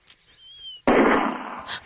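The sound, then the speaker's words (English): A single gunshot from a firearm that goes off by accident: one sudden, loud crack with a noisy, lingering tail that slowly fades. “Sorry, it just went off. Yeah, be careful with that. There's no need for firearms in this conversation.”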